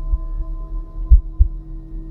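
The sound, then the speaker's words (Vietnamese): A pounding heartbeat, heard as a few deep, muffled low thumps at uneven intervals over a faint steady hum. “Lúc này nhịp tim của ông bỗng nhiên đập bình bịch hồn hển.”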